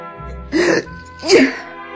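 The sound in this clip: A voice imitates a sneeze for a wolf with a cold: a loud, voiced two-part sneeze with a brief intake followed by a stronger burst.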